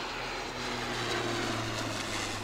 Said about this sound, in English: Small, little mosquito kind of plane.